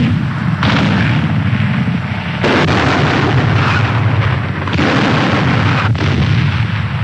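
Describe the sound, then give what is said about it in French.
Artillery shelling a city's defenses at Stalingrad as Soviet tanks engage: a dense, loud, continuous roar of blasts and rumbling with a few abrupt jolts where new bursts break in, and no voices. “L'artillerie pilonne les défenses de la ville.”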